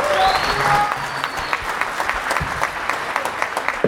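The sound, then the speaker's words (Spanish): An audience applauds a speaker at a community gathering, a dense, steady wash of many hands clapping that holds at an even level throughout, with no talk. “Un fuerte aplauso para él,”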